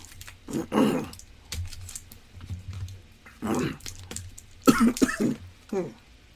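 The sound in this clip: A person who is choking coughs and clears their throat in several harsh, rough bursts separated by quiet gaps, with the loudest clusters near the middle and the end.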